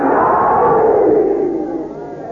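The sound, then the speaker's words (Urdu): Crowd at a religious gathering shouting the chant Naara-e-Haidari in unison: a loud, massed roar of voices that holds strongly, then fades away toward the end. “دونوں ہاتھ بلند کر کے اپنے کلیجے کی ساری طاقتیں اکٹھی کر کے اپنے مولا کی ولایت کا اعلان کر کے پوری طاقت سے کہیں نعرہ حیدری”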